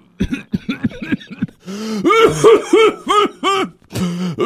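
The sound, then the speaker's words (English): A burst of coughing and throat-clearing, many rough, voiced hacks in quick succession. Short choppy coughs come first, then longer, heavier ones, all loud and close with no talk over them. “Those are coughs left over from the BJ's days.”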